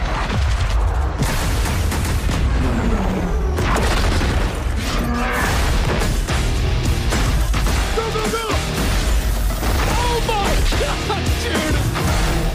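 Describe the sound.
Gunfire and explosions from the video game Battlefield: a dense, loud, unbroken barrage of booms and rapid shots with mechanical clatter layered throughout.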